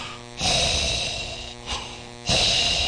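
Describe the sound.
A voice imitating Darth Vader's mechanical breathing: a few long, hissing breaths swelling and fading in turn, over a steady low hum.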